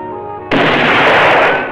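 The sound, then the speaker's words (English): A close-range pistol shot hits a sheet of metal in a disused mine shaft and glances off: one abrupt, loud blast followed by a sustained, ringing wash that fades slowly. A faint tonal hum comes before it. “sits in a disused mine shaft, pointing his pistol close range at a sheet of metal. The bullet glances off the metal, leaving a dent. He aims again.”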